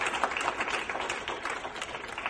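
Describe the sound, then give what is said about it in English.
A church audience claps their hands in praise: dense, continuous applause of many overlapping claps at a steady, fairly even level throughout. “Give him another hand clap of praise.”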